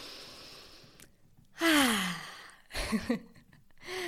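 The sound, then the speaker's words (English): A person taking a few deep breaths to collect themselves: a loud, voiced sigh-like exhale with a falling tone, then a couple of shorter, rougher breaths, all fairly faint. “Okay, let's collect myself with a few deep breaths.”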